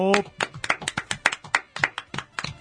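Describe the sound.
Hands clap in a studio, a quick run of many sharp, evenly spaced claps. A brief voiced sound comes just before the clapping starts.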